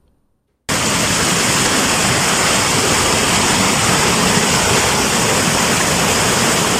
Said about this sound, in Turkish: Aniden bastıran sağanak bir anda gelen sel ve taşkınlar.